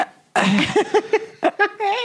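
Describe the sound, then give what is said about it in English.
A voice imitates a masseur breathing heavily during a massage, with rapid, rhythmic voiced huffs and pants that end in a longer strained breath. “One thing I don't like to hear is when it, when the massage takes too much out of the person, and you hear them breathe, and they're like,”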